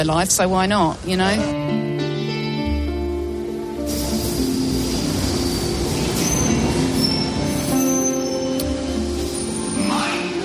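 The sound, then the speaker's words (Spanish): A London Underground train at Charing Cross, with rumbling wheels beneath loud, sustained whining and squealing tones that shift in pitch, and a voice heard over the train noise. “El sonido del metro de Londres es característico.”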